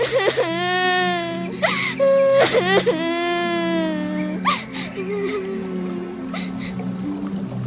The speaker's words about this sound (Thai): เมื่อสามพ่อแม่ลูกพบกันก็กอดกันร่ำไห้